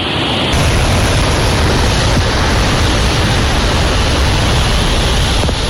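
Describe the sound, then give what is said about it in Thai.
Floodwater rushes over the Ban Wang Yao weir spillway in Phrom Khiri district, a loud, dense, unbroken roar of churning water that holds steady throughout. “น้ำก็ไหลไปที่ไหนไปที่ฝ่ายน้ำล้นบ้านวังยาวในอำเภอพรมคีรีนี่ครับฝ่ายน้ำล้นนี่ไหลมาตรงนี้ลงมาตรงนี้”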